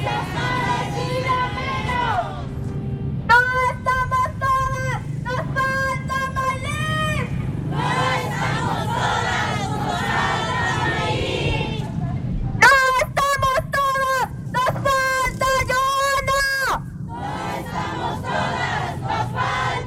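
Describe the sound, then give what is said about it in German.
Loud, angry chanting comes from a crowd of about 200 to 300 mostly young women at a street protest with banners and placards, on a main road in Yautepec near Mexico City. Bursts of rhythmic, shouted phrases repeat over constant crowd noise. “Die Sprechchöre sind laut,”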